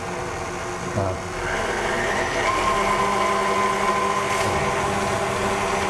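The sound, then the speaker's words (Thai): An electric mixer running at low speed, gently beating a mixture after ingredients are added; the motor starts after about a second and then whirs in a steady, even hum. “เพราะฉะนั้นเราก็ใส่ลงไปแล้วก็ตีนิดเดียวนะครับเบา เพราะอันนี้มันขึ้นละไม่ต้องใช้ความเร็วสูงแล้วเนาะ”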